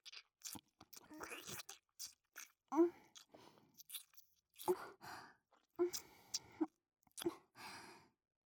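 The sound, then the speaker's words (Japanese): Lips gently nibble the outer ear in a series of soft, wet, crunchy mouth clicks spaced by pauses, quiet and close, with breathy sighs between them. “こうやって耳の外側を優しく唇で噛むようにしてあげれば、舐められてる人はリラックスできるし”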